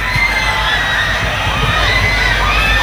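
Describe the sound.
A crowd of children shouts and cheers loudly during a welcoming speech at a gathering, a dense, continuous wall of high excited voices that holds steady throughout without letting up.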